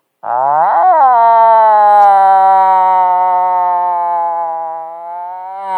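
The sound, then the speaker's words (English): A man's voice imitates a moose cow call: one long, high-pitched, whiny nasal tone that swells briefly near its start, then holds steady for about five seconds before easing slightly at the end. “Anybody know what a cow call sounds like? I don't either, because I didn't hear one. All I heard was the guy doing it. But it's a real high-pitched, whiny,”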